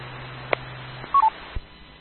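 Two short telephone keypad tones sound in quick succession as someone switches over to a phone, following a low hum and set among a few faint clicks.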